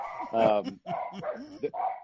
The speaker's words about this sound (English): Pardon my dog.